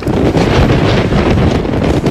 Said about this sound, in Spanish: El levante, caliente, seco y a veces insoportable, puede soplar más de 150 días al año y superar los 100 kilómetros por hora.